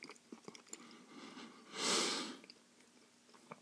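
A person chewing food on one side of the mouth because of a temporary crown: soft, faint, moist clicks and squelches in an irregular rhythm, with one louder breathy rush midway.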